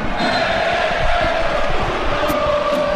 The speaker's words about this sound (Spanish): la afición malaguista animando a Chupete y coreando su nombre como chupe